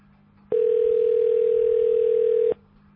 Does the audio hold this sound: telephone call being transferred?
yes